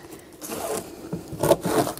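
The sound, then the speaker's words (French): A knife saws through a pineapple with its peel still on, cutting thick slices on a cutting board; a few rasping, scraping strokes rise and fall, with no talking. “Alors l'ananas, moi j'aime bien le découper comme ça, une grosse tranche. Regardez comme il est beau cet ananas. Alors ananas, pareil, s'il est bio, vous gardez la peau. Et là, vous faites hop, des grandes tranches.”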